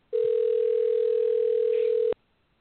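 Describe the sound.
A telephone dial tone sounds while a prank call to Walmart is placed: one steady, unbroken mid-pitched hum of about two seconds, followed by silence.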